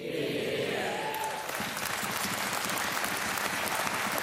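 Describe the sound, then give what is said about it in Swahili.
Applause from government-side members of parliament celebrating a 2023 budget speech, a steady, even wash of many hands clapping that holds at the same level throughout. “Wabunge wenza kwa upande wa serikali walimpiga makofi wakisherekea.”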